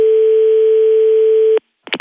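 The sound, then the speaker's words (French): A telephone dial tone sounds after a call is hung up: a single steady, unbroken hum lasts about a second and a half, stops abruptly, and a short burst of another sound follows after a brief silence. “Eh non, même pas grave, je vais raccrocher.”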